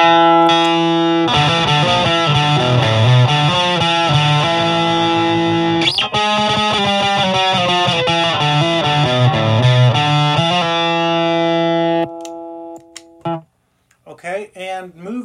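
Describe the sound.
Electric guitar through a Tech21 Fly Rig 5 pedal with its 21 dB boost on, plexi drive turned up and brightness at maximum: loud, distorted chords and riffs that ring out and fade, followed by brief talk at the end.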